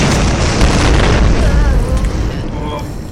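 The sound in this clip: Explosion sound effect: a loud, deep boom that hits at once and holds as a heavy rumbling roar, easing off slowly over about three seconds.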